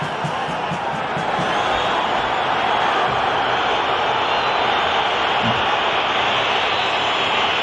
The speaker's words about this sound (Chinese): 现场一片嘘声啊！但是这个判罚的决定不可更改了。